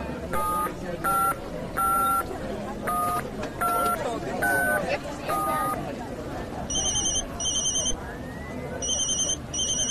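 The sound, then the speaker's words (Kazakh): A mobile phone rings with an electronic beeping ringtone: short high tone bursts repeat in a steady pattern, then switch to a different bursting tone partway through, with voices talking underneath. “Я ата, сіздің телефоныңыз не сап-сау бұзылмапты ғой, сайрап тұр, шақырып тұр.”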